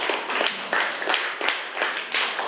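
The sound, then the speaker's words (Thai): Students in a classroom clapping for a group of classmates: many quick, slightly irregular hand claps in a fairly loud, uneven patter. “ปรบมือให้เพื่อนกลุ่ม2ด้วยนะคะ”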